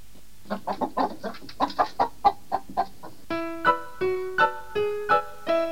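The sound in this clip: A speckled hen clucks in a quick, uneven run of short, choppy calls, followed by several longer, clearly pitched tones, moderately loud and with no talk.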